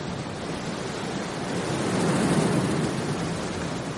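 Sea waves wash against a rocky shore in a steady, broad rushing noise that swells midway and then eases slightly, with no voices.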